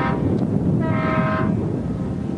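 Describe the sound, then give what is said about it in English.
A tugboat whistle in a canal, recorded in 1986: one steady harmonic horn-like blast of about half a second over a constant low rumbling background. “That's a tugboat whistle”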